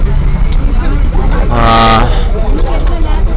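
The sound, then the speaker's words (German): Inside a crowded bus in Goa heading from near the train station toward the beach, packed with about fifty passengers: a steady engine rumble and constant chattering voices, with one sustained horn toot midway. “Wir sind in einem Bus auf dem Weg von irgendwo in der Nähe der Bahnstation zu irgendwo in der Nähe von dem Strand.”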